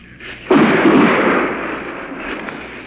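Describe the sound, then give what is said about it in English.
An artillery shell exploding during combat: a single loud, sudden blast that rolls into a long, low rumbling decay over a couple of seconds. “Seems like those artillery shells are landing in the back of my neck, whereas they were landing 200 yards to my right.”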